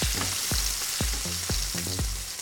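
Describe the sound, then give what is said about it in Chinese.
Aromatics stir-fried Hunan style in hot oil give a dense, loud sizzle and hiss throughout, with a steady series of sharp knocks about every half second. “原味这边还是很像湘菜的做法，就是上来爆香。”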